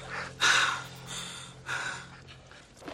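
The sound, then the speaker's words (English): A woman gasps and catches her breath after coughing up brown water: two sharp, breathy intakes, then fainter ragged panting, with no talk. “She stares incredulously at Russ as she catches her breath.”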